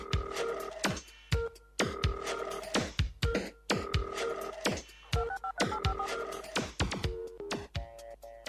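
Telephone keypad dialing tones sound out a phone number: many quick electronic beeps in a repeating rhythmic pattern, each group marked by sharp clicks, with no talk.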